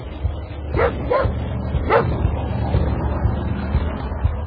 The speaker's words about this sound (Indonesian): seekor anjing hitam sedang menyalak di luar rumahku.